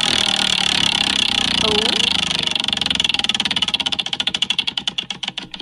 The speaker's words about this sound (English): So I'm just going to let the wheel do its thing and then just see what happens.